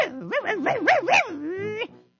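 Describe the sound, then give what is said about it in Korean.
A dog gives a run of yelping, whining barks whose pitch swings rapidly up and down, then ends in one drawn-out whine before falling silent. “짖더라고요”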